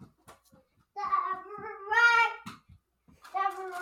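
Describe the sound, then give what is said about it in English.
A two-year-old toddler babbles in a few short, high-pitched harmonic bursts, with a longer sustained vocal stretch in the middle and quieter soft noises between them. “That's my son in the background. He's saying diaper run, because he's 2. And oh, there he goes.”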